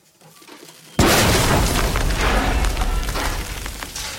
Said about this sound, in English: The mouth of the mine is engulfed in thick yellow smoke. The miner, thrown back a little by the explosion, waits for the smoke to clear and steps back towards the shaft.